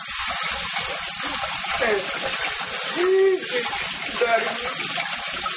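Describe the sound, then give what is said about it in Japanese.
Tap water runs into a sink while a bowl is washed, a continuous hissing gush that holds at an even, moderate level throughout. “ボウルを流しに入れて洗います。”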